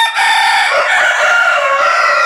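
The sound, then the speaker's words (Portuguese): Two roosters crowing, loud, sustained, overlapping crows that fill the whole clip with no other sound. “Dois galos cantando.”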